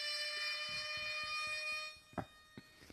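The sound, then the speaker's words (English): An alarm going off, a steady high electronic tone with a pulsing beat underneath, cutting out after about two seconds and followed by a few faint knocks. “The alarm just went off.”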